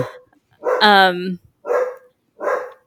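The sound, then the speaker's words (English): A dog barks: one drawn-out, pitched bark like a yowl, then two short, fairly loud barks, with brief silences between them. “Sorry about my dog again.”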